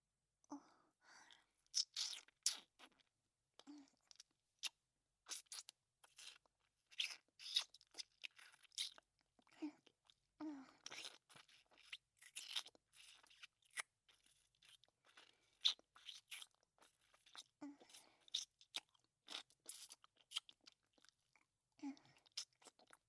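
Food being eaten close up: many crisp crunches and bites with wet chewing in between, irregular and quiet, with faint breaths and no talk.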